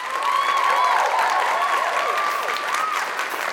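Studio audience on a children's challah-baking show cheers and applauds steadily, dense clapping throughout with whoops and whistling cries rising over it.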